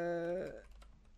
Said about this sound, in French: là, je vais le taper vite pour vous le dire.